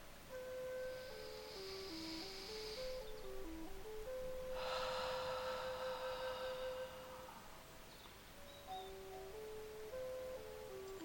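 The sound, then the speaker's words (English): A deep breath during a guided grounding meditation: a soft, airy breath is drawn in and then released more slowly, over gentle sustained melodic tones. “Tension is being removed as we do our final third breath.”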